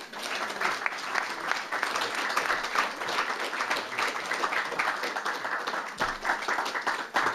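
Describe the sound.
Audience applause greets a political science professor arriving to give a talk on U.S.-Russian relations. Dense, steady clapping holds an even loudness for about seven seconds, with no voices over it.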